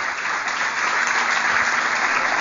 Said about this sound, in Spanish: Si va a aplaudir a Dios, denle con fuerza, por favor.